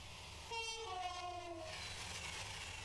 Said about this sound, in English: That's a Pendolino train hitting me.